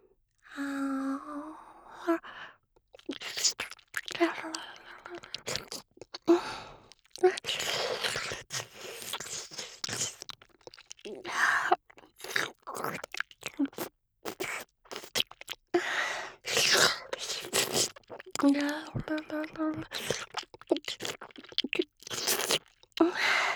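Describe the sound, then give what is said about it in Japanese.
Wet ASMR ear-licking mouth sounds: many irregular smacks, clicks and slurps close to the ear, broken by short pauses and soft breathy vocal noises. “お耳の奥までしっかりと舌先を伸ばして舐めさせていただきますね。”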